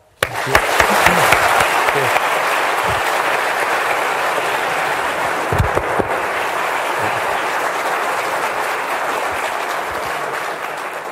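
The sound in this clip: Audience applause welcomes a guest speaker at a University of Virginia event. The clapping starts abruptly, then holds as a dense, steady wash of many hands for about eleven seconds without fading.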